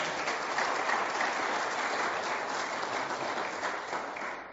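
An audience applauds to congratulate a couple on their engagement. The clapping is dense and steady, holds at a fairly even level and tapers off slightly toward the end.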